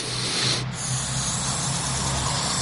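Breath blown through a floating-ball pipe toy holding a foam ball gives a steady, airy hiss that stays continuous, with one brief dip near the start.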